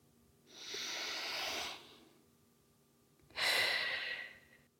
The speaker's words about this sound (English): I hope you feel comfortable to take a collective deep breath with me